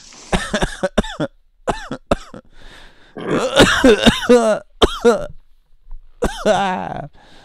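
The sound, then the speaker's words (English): A person coughing in repeated fits: many harsh, raspy coughs in tight clusters, some voiced and drawn out, with throat clearing between the bursts and short silent gaps. “Still got some coughing going on here.”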